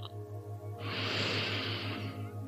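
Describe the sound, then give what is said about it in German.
Deep breathing during a guided sleep meditation: one long, soft, airy exhalation hiss that swells and then holds steady, over a faint, steadily pulsing low background tone. “nehmen wir jetzt ein paar ganz tiefe Atemzüge und zwar mit einer verlängerten Ausatmung”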